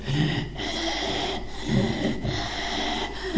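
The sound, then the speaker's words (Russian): A voice imitates wheezing breathing, making a few rasping, noisy breaths in a steady rhythm separated by brief pauses. “есть люди, которые так дышат с хрипом.”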